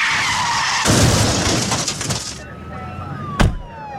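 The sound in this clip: Tires skid and squeal in a car accident: a loud, sustained rush of screeching friction with high, drawn-out whining tones, ending in a sharp hit near the close.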